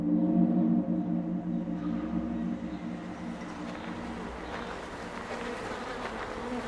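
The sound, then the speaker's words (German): Honey bees buzzing, a swarm of about 50,000 kept at the Bundestag. A dense, steady drone with a low humming tone runs throughout, loud at first and easing slightly after a couple of seconds, with no talk. “Das sind die Bienen aus dem Bundestag, 50.000 Bienen. Die sammeln ordentlich Honig”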